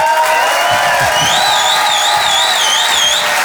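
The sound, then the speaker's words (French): A live audience gives an ovation at a comedy show, steady loud crowd noise with cheering, applause and whistled whoops sustained throughout. “Je vous demande de faire un maximum de bruit. Une ovation s'il vous plaît”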